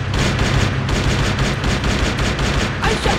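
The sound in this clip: Gunfire during a battle attack forms a dense, continuous, loud barrage of overlapping shots with no break and no clear gaps between them.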